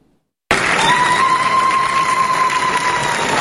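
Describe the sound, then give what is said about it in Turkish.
Applause and ululation rise from DEM Party members celebrating around the MHP leader in the Turkish parliament after a law passes. The loud, dense crowd noise bursts in suddenly after a brief silence, with a sustained high trilling tone riding above the clapping. “DEM Partililer MHP lideri Bahçeli'nin etrafını sardı. Zılgıtlar ve alkışlarla kutlama yaptı.”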